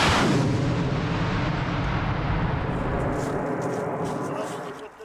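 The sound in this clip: An artillery gun fires near the front line in Ukraine: one loud blast at the very start, followed by a long rumbling decay that fades over about five seconds.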